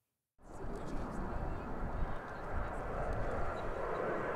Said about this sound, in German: Da üben sie mit 6 Tornados im Grunde genommen die Basics, also starten und landen.